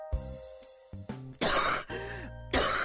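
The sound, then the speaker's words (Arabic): A person coughs and clears their throat in several harsh, raspy bursts over a low, steady tonal background. “سلامتك من الكحة”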